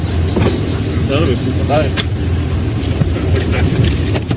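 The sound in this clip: A car engine running during a roadside police stop, a steady low rumble throughout with people talking over it.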